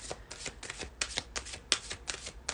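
A deck of cards being shuffled before a card is drawn: many quick, crisp riffling bursts in a fairly regular rhythm, faint and papery, with no talk over them.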